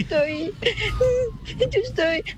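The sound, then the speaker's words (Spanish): A small child screeches and cries in high-pitched, wavering wails that break into several bursts, loud and strained throughout. “Ay, cómo le chilla el chiquito.”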